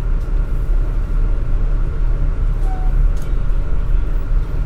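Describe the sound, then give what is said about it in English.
An old subway train car in the Bronx rumbles steadily, a loud, continuous low roar with no breaks. “Yeah, this is a really old train car, too. Feels like it's an 80s, 90s train car.”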